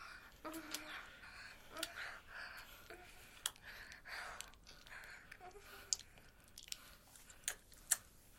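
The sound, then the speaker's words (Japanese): Wet licking and mouth sounds on an ear, faint and close, with many small smacks and clicks and soft breaths in between. “舐めてもいいですか？”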